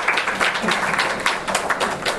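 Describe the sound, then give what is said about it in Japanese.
Audience applause at the close of a lecture course, given for three guest speakers, a dense and steady patter of many hands clapping at an even level from start to finish. “山崎さん、横田さん、大西さんに今一度大きな拍手をお願いいたします。”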